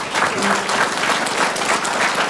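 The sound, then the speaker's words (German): Audience applause at a ceremony where certificates are handed out: loud, dense, continuous clapping at an even level throughout the short stretch. “Das ist euer Applaus nochmal”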